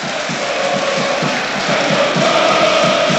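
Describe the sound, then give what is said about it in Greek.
A football match crowd cheering in the stands, a loud, continuous roar of many voices with a faint pulsing chant underneath that grows slightly louder toward the end. “Ζεσταίνεται το κοινό, σε ένα ωραίο παιχνίδι.”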